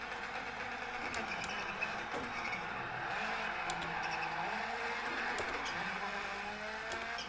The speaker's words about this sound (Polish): rallycrossówki nie są łatwe w prowadzeniu, szczególnie takie 600-konne potworki